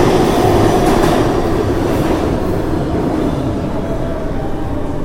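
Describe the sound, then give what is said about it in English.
A subway E train passes through an underground station with a loud, steady rumble of wheels and cars on the rails. The roar fades slightly toward the end, and no one speaks. “There's another E going the other way. So many E's. It's hard to talk down here, right? Because it's so loud.”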